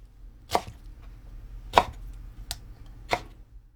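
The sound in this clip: Four sharp knife chops on a chopping board as squeezed, boiled mustard leaves are cut into 4 cm lengths. The strikes are clear and irregularly spaced against a quiet background.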